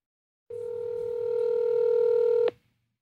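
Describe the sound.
A telephone line tone sounds as a call goes out to a caller during a live call-in show: one steady, buzzy tone lasting about two seconds. It swells slightly, then stops abruptly with a click over a low rumble.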